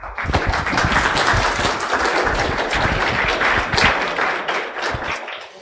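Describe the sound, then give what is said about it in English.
An audience applauds to welcome a speaker onto the stage, with dense, steady clapping that holds throughout and eases slightly at the very end. “let's go ahead and hear it for David McIlvaney”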